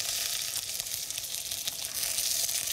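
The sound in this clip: Meat sears in a hot pan, browning on all sides for a brown sauce, giving a steady, fairly quiet hiss and crackle of sizzling fat that carries on without a break.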